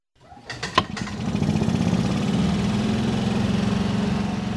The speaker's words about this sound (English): That's just as well as I take a spin around the Piatt County town of Cerro Gordo with Tim Allen on his gasoline-powered cart.